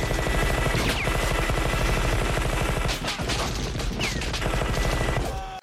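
A minigun fires one unbroken burst of roughly a thousand rounds, a dense, loud mechanical roar of extremely rapid shots that holds steady for over five seconds before cutting off abruptly.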